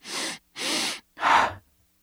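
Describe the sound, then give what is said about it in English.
Three energizing breaths: a quick inhale into the belly, a second inhale up into the chest, then a short, forceful breath out through the mouth, each clearly separated by brief pauses. “We'll take a quick breath into the belly, one up into the chest, and then a short breath out from the mouth. It sounds like this.”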